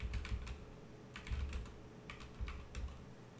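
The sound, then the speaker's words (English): Computer keyboard keys clatter as someone types a search query, many light, quick keystrokes grouped into a few rapid bursts with brief pauses between them, fairly quiet and with no talking. “Let me type in does Ray Rice have kids? Hold on.”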